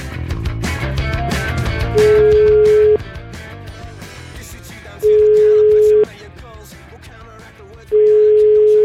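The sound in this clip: A telephone tone sounds while a call is being placed. Three steady, level one-second beeps come at even intervals over loud background music.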